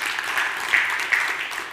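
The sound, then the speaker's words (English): Audience applause in a round honoring a staff member, a steady wash of fairly faint clapping that holds evenly for nearly two seconds with no talking over it. “Thank you. Give her a round of applause.”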